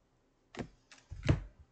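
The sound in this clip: A tarot card from a Rider-Waite deck drops onto a desk during shuffling, making a few quiet, brief papery taps close together.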